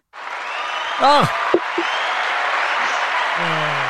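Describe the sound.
A round-of-applause sound effect: steady, dense clapping that runs from just after the start to the end, with brief vocal sounds and a couple of sharp knocks early on.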